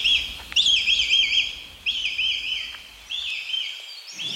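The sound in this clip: A female red kite calls as she flies out of her nest in late May. There are three bursts of high, wavering whistled calls, loud and clear, separated by short gaps.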